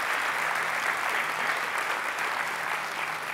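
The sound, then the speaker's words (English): Steady applause fills a church sanctuary as the audience welcomes teenagers in, a dense, even patter of many clapping hands that holds at a constant level throughout. “I want us to just put our hands together and let's welcome our teenagers into the sanctuary this morning.”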